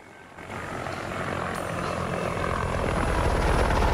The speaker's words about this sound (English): The situation becomes more desperate when the jet engine ignites one of the tree branches.